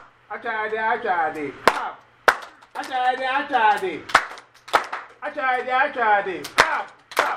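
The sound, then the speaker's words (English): A group claps hands together in unison, a few sharp single claps landing between repeated chanted phrases from a voice. “So actually means clap.”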